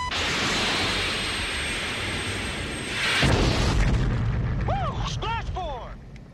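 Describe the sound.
A missile launch after target lock: a sustained roaring rush builds into a heavy, booming explosion, then a few short chirping electronic tones sound at the end.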